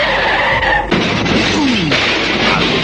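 A car skid and crash sound effect plays in a comedy sketch. Tyres screech in a loud, harsh, noisy burst, broken by a couple of sharp impacts.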